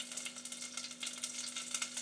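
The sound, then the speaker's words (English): Chicken pieces sizzle as they fry in a pan, giving a steady, bright crackling hiss with small irregular pops throughout, fairly quiet and with no talking. “Let's put the chicken in. Ooh, what am I knocking over? Put one piece in, see if it's sizzly enough.”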